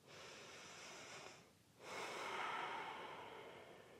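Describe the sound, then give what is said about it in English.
One deep human breath, faint and airy: a long inhale, a short pause, then a longer, fuller exhale, with no talk. “Let's take one deep breath with me.”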